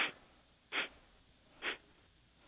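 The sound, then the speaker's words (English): Breath is blown out through the nostrils in three short, sharp, evenly spaced exhalations, with a fading breath at the very start and quiet in between. “Blowing the breath out through the nostrils.”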